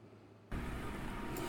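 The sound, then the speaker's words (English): An engine revs as the throttle is cranked open: a quiet low hum suddenly jumps into a loud, broad roar that holds steady to the end. “I'm cranking up on the throttle. This is how legends are made.”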